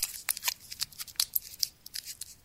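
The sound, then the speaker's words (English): Crisp crinkling and crackling of a Starburst candy wrapper being unwrapped for ASMR, many short, sharp, bright rustles in an irregular rhythm, with no voices. “that is a starburst and being unwrapped”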